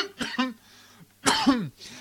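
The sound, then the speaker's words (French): Coughing after a live performance of a song: a short double cough, a pause, then a stronger, longer cough with a small trailing catch, each with a throaty, voiced edge. “J'aime bien faire ça, un petit live de temps en temps. Hein. Ça me fait tousser par contre.”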